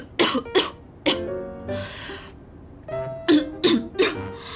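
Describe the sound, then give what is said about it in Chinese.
Coughing after choking on saliva: sharp, harsh coughs come in two clusters separated by a pause filled with softer throaty, breathy sounds, the bursts loud and irregular in spacing. “就是被口水呛了一下。”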